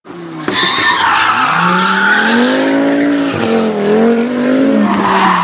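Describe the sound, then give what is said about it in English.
Tire squeal sound effect: a loud, sustained screech of skidding car tires that bursts in abruptly and holds for several seconds with a wavering, slightly falling pitch, heard alone. “It's cute, little tires, they squeal.”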